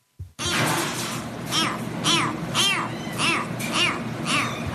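A series of shrill, arching screeches presented as the call of a pterodactyl, a flying dinosaur with a long beak, repeating in a steady rhythm over a constant noisy background, loud and with no talk.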